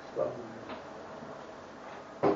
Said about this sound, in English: there's a door that's like banging somewhere, so they could shut that